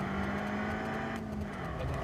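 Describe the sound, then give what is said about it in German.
Engine rumble inside a self-driving car as its automatic control accelerates at the end of a curve. The hum is low, steady and fairly faint, with a constant broad road noise and no voices. “Am Ende der Kurve gibt die Automatik ordentlich Gas, obwohl ich meinen Fuß vom Pedal genommen habe.”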